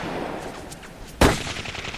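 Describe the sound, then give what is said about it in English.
A single sharp gunshot cracks out abruptly midway, loud and brief against a quiet background with faint scattered noises before it. “I couldn't see who was shooting at me, but there sure were a lot of them.”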